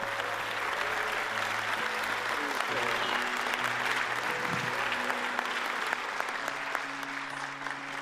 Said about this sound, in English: Let's give a warm welcome to April Simons as she comes to bring the word.